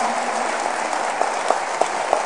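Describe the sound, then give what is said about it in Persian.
An audience at a wedding celebration claps along steadily, a dense, even wash of hand claps. A few sharper, louder claps stand out near the end. “خیلی شور دست میزنیم، حیف نیست دست پایین باشه، بیاری دست تو بالا کف بزن.”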